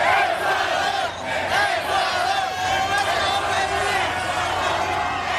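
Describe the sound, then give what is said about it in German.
Ecuador football fans celebrate their 2:1 victory over Germany at night in East Rutherford near New York, a loud, dense crowd roar of chanting and cheering that holds steady throughout with no pause. “So klang das in der Nacht in East Rutherford bei New York. Die Fans aus Ecuador haben dort den 2:1-Sieg ihrer Mannschaft gegen Deutschland ausgiebig gefeiert.”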